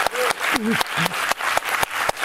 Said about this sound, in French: Alors, c'est ce qu'on va faire maintenant, on va vous applaudir et vous remercier.